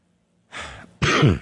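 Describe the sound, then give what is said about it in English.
Coughing from someone who recently quit smoking: two harsh bursts, a softer rough one followed by a louder, fuller hack after a brief pause, with no talking. “Sorry about the cough there.”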